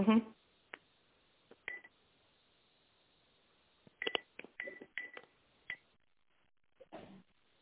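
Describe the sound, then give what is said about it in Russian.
Dialing tones on a phone line as a call is transferred: a few short, thin electronic beeps and clicks in irregular bursts, with quiet gaps between them. “Подождите, это не Елена, сейчас переведу.”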